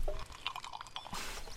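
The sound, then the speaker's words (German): A deep gulp of cold, fizzy lemonade: wet slurping and swallowing sounds, then a soft hiss of fizz near the end. “Ich jedenfalls gönne mir jetzt einen tiefen Schluck kalter, prickelnder Limonade.”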